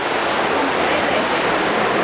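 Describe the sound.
Water rushes through the sluice gates that regulate a lake's level, making a dense, even roar that stays loud and unbroken throughout.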